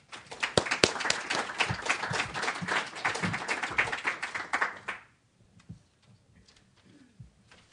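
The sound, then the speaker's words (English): Audience applause welcoming a professor at a Commonwealth Club event: brisk, dense clapping from many hands for about five seconds, then stopping abruptly into near silence with a few faint stray sounds. “So at this point, please help me welcome Professor Jamie Robinson.”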